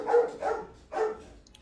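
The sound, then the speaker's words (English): Dogs bark three times: two short barks close together, then a third after a brief pause, at a moderate level with no talk over them. “bow wow. Woof, bark. We'll get the Google Translate up so we can understand what Jake's dogs are saying for us.”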